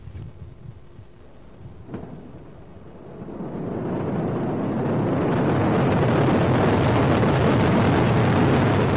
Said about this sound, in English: They blasted off and the whole thing is a great success.